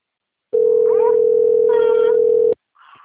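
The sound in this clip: Ringback tone of an outgoing telephone call: one steady, loud, mid-pitched tone lasting about two seconds, then stopping abruptly, with faint voices over it and afterward.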